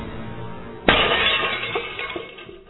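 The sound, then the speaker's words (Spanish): Window glass shattering as a body crashes through it in a dramatised serial, a sudden loud crash followed by a tinkling spray of falling fragments that fades over about two seconds. “No lo dudó y se lanzó al vacío, rompiendo con su cuerpo el cristal de la ventana.”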